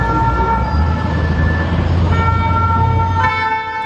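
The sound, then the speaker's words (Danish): Emergency vehicle sirens sound in the street amid unrest, as a loud, steady tonal blare over constant background noise, with the tone changing near the end. “Der er sirener og tumult i gaderne”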